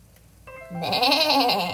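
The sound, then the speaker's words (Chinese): A lamb bleats in a children's story. It is a single quavering bleat that grows louder and holds its wobbling tone. “鸭子走了后，小羊轻快地跑了过来，送给小河马一瓶沐浴乳，并且邀请他一起去池塘玩水洗澡。”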